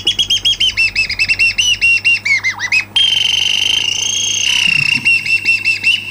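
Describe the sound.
A bird chirping sound effect: rapid, loud high chirps repeat in a steady run, then give way to a stretch of sustained whistling tones. Quick chirps return at the end, and no one speaks.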